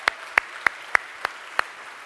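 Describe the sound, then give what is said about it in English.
Hand clapping as a church audience welcomes a softball team: six sharp, evenly spaced claps, sparse and alone, with no voices. “Would y'all give a hand and welcome them here with us today?”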